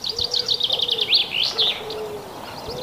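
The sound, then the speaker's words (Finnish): Wood pigeon cooing in soft, low hooting notes, heard alongside busier high-pitched chirping from other birds. “Mutta sitten vielä tämä ääni, eli se pelkyyhky.”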